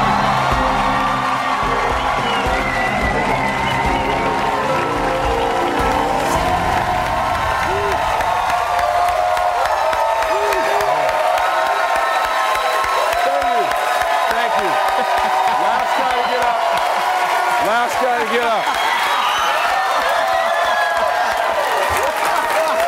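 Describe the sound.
A studio audience at The Daily Show cheers and applauds in a standing ovation for wrestler John Cena. The roar of clapping and whoops is loud and unbroken throughout.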